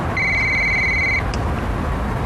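An electronic telephone ring sounds as one steady, high tone lasting about a second, followed by a short blip. A low, constant hiss runs underneath.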